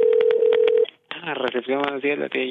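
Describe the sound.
Telephone keypad tones sound as an international call is dialed, a rapid run of short beeps over a steady tone. After a brief silence, a voice speaks.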